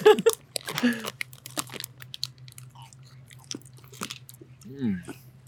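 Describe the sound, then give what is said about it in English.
Crunchy chewing of Skittles candies of a harder variety, many irregular crisp bites and crackles, with short bits of people talking at the start and near the end. “These are a little harder than the other ones. A little harder. I feel like these regular Skittles are more sweet.”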